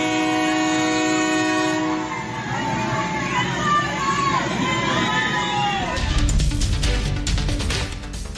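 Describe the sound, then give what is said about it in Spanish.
Interoceanic Train of the Isthmus of Tehuantepec at Coatzacoalcos, on its run from Salina Cruz: a long, loud sustained horn blast, crowd noise and voices, then the heavy rolling rumble and clatter of the cars. “Bueno, pues ahí está en Coatzacoalcos, en el tren”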